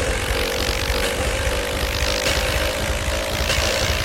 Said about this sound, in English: Ladies and gentlemen, may I have your attention, please? We're now ready for takeoff, so please fasten your seatbelt.